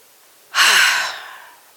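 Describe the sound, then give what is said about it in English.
A single deep breath out, a loud breathy rush that starts abruptly and tapers off over about a second, alone with no talk. “I need to breathe, so y'all can just breathe with me.”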